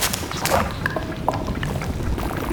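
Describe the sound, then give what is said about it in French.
Gurgling water currents in a canal: irregular bubbling gurgles and small liquid pops sit over a steady, noisy low wash of moving water. “J'aurais jamais pensé que c'était les sons du canal, ça. Les courants, peut-être.”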